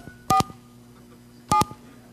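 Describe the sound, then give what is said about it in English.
Telephone keypad tones as a phone is dialed: two brief, bright dual-pitch beeps separated by a pause of about a second, over a quiet low hum. “So I pick up this phone, and actually this is kind of wrong. I always hate dialing with words.”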